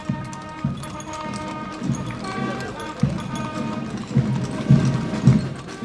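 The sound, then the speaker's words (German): Horse hooves clop as horses pull carriages in a town parade in Regensburg. The clops are loud and irregular over a busy background with voices. “In getrennten Kutschen sitzen der Oberbürgermeister der Stadt und der Regensburger Bischof.”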